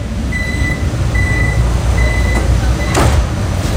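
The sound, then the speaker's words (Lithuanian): A steady low rumble of riding down into the Vienna metro, with a few short, high beeping tones sounding at intervals and a brief hissing burst near the end. “Aš vėl leidžiuosi į vienos metro. Važiuoju į stadioną”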